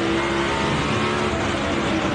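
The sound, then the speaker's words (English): A Toyota Camry NASCAR race car at speed gives a dense, unbroken roar of engine and rushing air, loud and level throughout, with no voices. “This is a Camry on NASCAR.”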